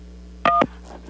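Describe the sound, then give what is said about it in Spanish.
A single telephone keypad tone sounds as 1 is pressed to accept a call from a correctional facility. It is one brief, steady two-tone beep, about a fifth of a second long, heard alone. “Marque 1 para aceptar la llamada. 2 para negar esta llamada.”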